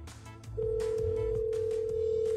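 An unanswered telephone call rings out during a radio prize call as a steady mid-pitched line tone. It begins after a short moment and holds continuously over a rumbling, noisy background.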